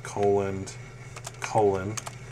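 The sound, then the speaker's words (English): Keys clack on a computer keyboard as CSS code is typed, with a few sharp clicks coming among and after short voiced sounds. “fingers are mashing keyboard keys”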